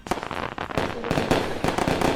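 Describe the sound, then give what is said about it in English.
Fireworks exploding for July 4th: a dense, continuous barrage of loud crackling bursts and sharp pops, many overlapping blasts with no real pause between them. “Something different. There's our fireworks.”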